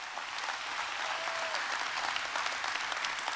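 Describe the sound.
Congregation at an Easter church service applauds in a dense, steady wash of many clapping hands that keeps an even level throughout, with no speech over it.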